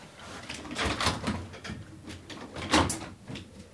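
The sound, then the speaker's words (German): A window being closed, heard as a few short knocking bumps and scraping slides. The bumps are moderately loud, with one stronger bang near the end and no talk over them. “Ich frage mich, ob man vielleicht das Fenster zumachen kann, weil draußen hämmert es manchmal so.”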